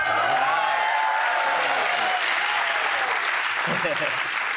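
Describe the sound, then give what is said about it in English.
Audience applause for Formula 1 driver Lewis Hamilton, a dense, steady wash of clapping that holds for several seconds, with a voice talking over it. “Aplausos para Lewis Hamilton.”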